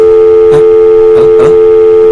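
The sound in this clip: A steady telephone tone after a call is cut off: a loud, unbroken single-pitched tone held throughout, with a few faint, brief noisy bursts over it.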